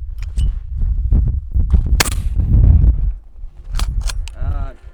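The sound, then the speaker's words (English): A single loud shotgun blast fired at a thrown clay target cracks out amid people talking before and after it. “Not the cleanest shot. Got it though. I winged it.”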